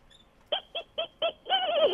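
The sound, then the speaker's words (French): A person imitates a dolphin call over a phone line with four short, squeaky chirps in a quick, even rhythm. A longer, wavering high whistle follows and rises and dips as it warbles. “On a un dauphin au bout du fil.”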